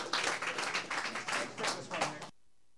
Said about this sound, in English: So let's give him a warm, warm welcome.